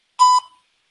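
A single voicemail beep sounds: one short, steady, mid-pitched electronic tone lasting about a fifth of a second, with a brief fading tail, then silence.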